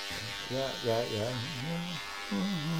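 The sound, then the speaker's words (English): An electric shaver buzzes steadily while someone finishes shaving, a continuous mid-loud hum that runs under a voice throughout. “Hold on. Just want to, about ready to finish shaving here. I don't want to look unkempt for today's show”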